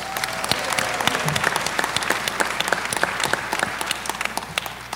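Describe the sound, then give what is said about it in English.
Audience applause at a conference honoring a graduating class: many hands clapping in a steady, crisp patter of distinct claps that holds strongly throughout and thins slightly toward the end. “We can give her applause.”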